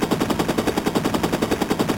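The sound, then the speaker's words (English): Rapid machine gun fire from a video game rattles in a continuous burst of many evenly spaced shots. The shots sound sharp and mechanical throughout the two seconds, with no voices. “This agent just threw what appears to have been a grenade and fired a machine gun.”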